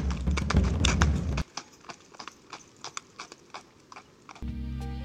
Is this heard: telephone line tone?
no

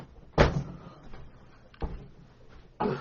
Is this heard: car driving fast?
no

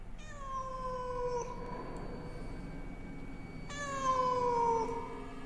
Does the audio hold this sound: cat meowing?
yes

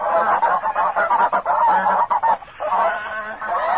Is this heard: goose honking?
yes

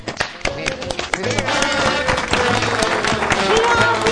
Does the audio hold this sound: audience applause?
yes

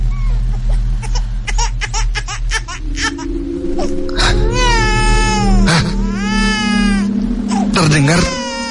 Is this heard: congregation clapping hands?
no

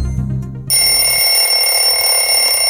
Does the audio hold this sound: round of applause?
no

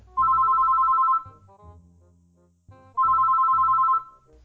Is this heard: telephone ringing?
yes

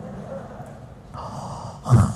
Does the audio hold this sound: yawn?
yes

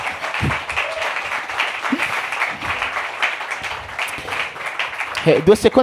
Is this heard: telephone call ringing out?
no

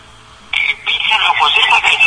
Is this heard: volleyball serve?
no

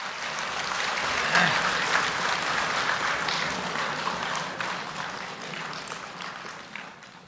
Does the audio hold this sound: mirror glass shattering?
no

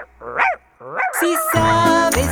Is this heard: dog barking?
yes

